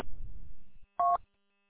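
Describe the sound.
A radio repeater sends out a short, clean beep when the transmitter unkeys after tone squelch. It follows a burst of rough noise that cuts off abruptly, and silence comes after it.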